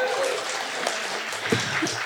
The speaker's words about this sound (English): Lakshin Millen, everyone, round of applause.